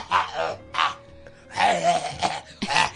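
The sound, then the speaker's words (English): Someone clears their throat in a few rough, voiced bursts separated by short pauses. The hoarse, groaning bursts are moderately loud and come alone without other sounds. “Now you're not coughing, and all you just got clearing your throat.”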